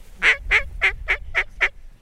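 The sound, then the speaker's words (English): A duck call sounds six quacks in a row, each short and raspy, evenly spaced and of similar loudness, imitating a duck with no talk over it. “a simple quack is just, and then a lot of times this morning to grab those ducks' attention, I was doing 5 to 7 quacks in a row.”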